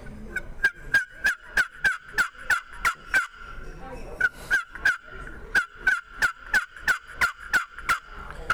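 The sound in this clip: A handmade turkey call imitates a wild turkey with two runs of sharp, evenly spaced yelps, separated by a short pause, each note bright and clucky. It is heard alone.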